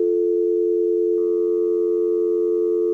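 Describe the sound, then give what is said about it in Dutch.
Telephone line tone on line 1 of a radio studio mixing desk: a steady, loud, pure electronic tone that runs unbroken throughout, its timbre brightening slightly partway through. “Maar moet ik dan lijn 1 hebben? Maar dan hoor ik de hele tijd tuut, tuut, tuut.”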